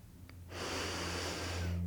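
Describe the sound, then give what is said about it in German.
A deep breath drawn in during a guided relaxation exercise. A soft airy hiss swells after a quiet start and holds steady and fairly faint until the end, with no talking. “Atme tief ein”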